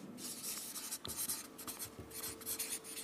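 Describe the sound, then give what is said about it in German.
Writing with a finger in the sand, a faint dry scratching and rubbing made up of many short strokes and scrapes that keep going steadily, with no voices. “Er bückt sich nieder und schreibt in den Sand.”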